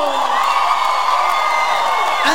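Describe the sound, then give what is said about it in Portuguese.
An audience shouts and cheers in a dense, continuous roar with scattered whoops, loud and steady throughout. “Quem gostou, dá um grito!”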